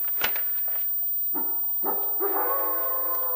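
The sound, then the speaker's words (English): A wolf howls at midnight in a few faint, drawn-out, tonal calls that follow a sharp click at the start. The last howl is the longest and steadiest. “The wolf. The wolf.”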